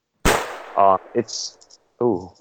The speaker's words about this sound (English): Someone just got shot.